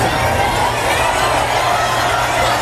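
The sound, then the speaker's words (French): Crowd of nearly 10,000 cheering Roger Federer's entrance onto the court for a practice session at Flushing Meadows, New York: a dense, loud roar of voices and shouts that holds steady throughout. “Oui, la magie Federer opère toujours. Écoutez l'ambiance hier à New York pour son entrée sur le court.”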